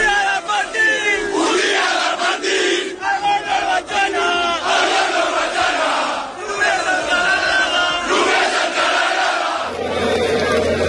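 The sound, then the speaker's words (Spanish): Barcelona football fans celebrating a league title: a loud, dense crowd roar of shouting and chanting that continues without a break. “Eran sonidos de la fiesta de anoche, pero es que hoy hay más fiesta”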